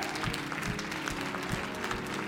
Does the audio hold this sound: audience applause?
yes